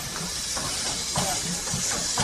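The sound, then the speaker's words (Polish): A steam locomotive pulls old railway carriages with steady rhythmic chuffing, its exhaust bursts repeating about twice a second over a constant bright hiss of steam. “Ciekawe jest to, że jest jednak parowóz, czego no na pewno się już nie zobaczy tak normalnie na torach.”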